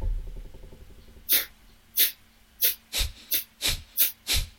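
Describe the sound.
Eight sharp, forceful puffs of air are blown out through the nose with the mouth closed during a breathing exercise. The snorting bursts come at a quickening, steady rhythm after a faint low hum.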